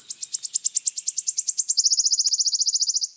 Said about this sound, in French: Rendons-lui hommage, voilà le chant du pouillot siffleur. Cette petite bille qui rebondit.